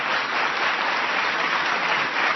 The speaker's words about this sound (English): That's why it's an applause line.